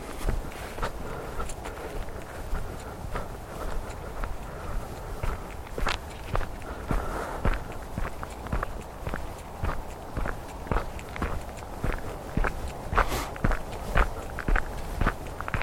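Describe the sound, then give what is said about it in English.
Footsteps of a person walking outdoors: a steady, regular run of many crisp steps at an even walking pace, with no voices over them. “Right, let's carry on walking.”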